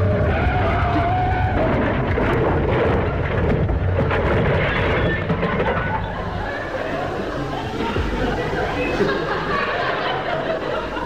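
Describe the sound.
A car brakes and skids as it drives down off a pavement near a newspaper kiosk. A loud, continuous rough roar with deep rumble fills the whole clip, and voices are mixed in.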